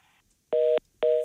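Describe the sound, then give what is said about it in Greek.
Two steady electronic telephone tones, each lasting about a quarter second and evenly spaced, sound as a caller's line drops during a radio call-in show. “Έπεσε η γραμμή. Οπότε είμαστε stand by.”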